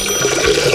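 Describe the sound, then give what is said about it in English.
Toilet flush sound effect: a short burst of rushing, gurgling water that holds at a steady level, with no voices over it. “That's the sound of him going to the bathroom.”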